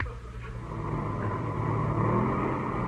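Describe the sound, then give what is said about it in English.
An airplane motor runs in a steady, low droning rumble that swells slightly after the first second and then holds at an even, fairly loud level, with no voices. “Motor sound okay.”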